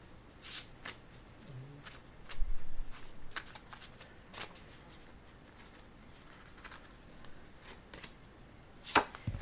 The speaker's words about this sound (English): Yes, I'll pull a card for you, Julia.